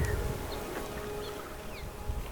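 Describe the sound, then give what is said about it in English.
Bees buzzing around purple sage flowers, a faint, steady insect hum running through the whole stretch over constant background noise. “Bees. Look at that. They're just everywhere. This is sage. These little purple flowers.”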